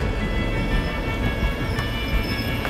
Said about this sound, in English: As my train continues its journey north towards the gas fields, we cross paths with one or two passenger trains